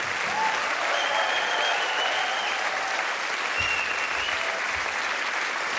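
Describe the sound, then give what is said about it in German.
Audience clapping in a thick, continuous wash of applause that holds at a steady, moderate level for about six seconds without a clear rise or fade. “Ein Applaus für Birk.”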